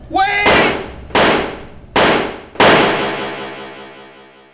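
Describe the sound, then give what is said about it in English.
Four gunshots as police fire on a man, each a sharp, loud crack with a decaying tail, the last ringing out longest; a shouted voice comes just before the first shot. “Wait! They shot me. 4 times. The leg, gut, and chest. 2 in the chest.”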